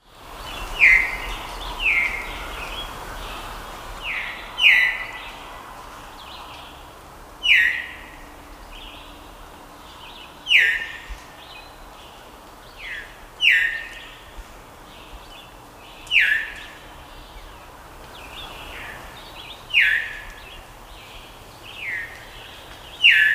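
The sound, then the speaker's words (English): Common Loon calls: many brief, high, sharp notes with falling sweeps, repeating every couple of seconds over a quiet, faint background. “Common Loon.”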